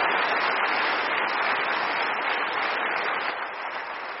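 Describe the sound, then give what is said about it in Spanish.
A church audience claps in praise during a sermon. The clapping is dense, steady and muffled, and it eases slightly toward the end. “Dale un aplauso de alabanza a su nombre.”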